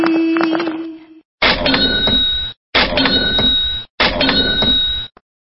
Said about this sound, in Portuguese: E que som que é isso aí, você sabe? É o som de uma máquina registradora. Uma máquina registradora? Seria uma caixa registradora? É uma caixa também, pode ser? Uma caixa ou máquina? Caixa registradora. Isso, de dinheiro.